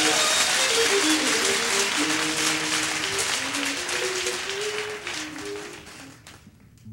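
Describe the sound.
An audience applauds to welcome bluegrass five-string banjo player JD Crowe. Dense clapping runs steadily with faint instrument tones underneath, then thins and fades near the end.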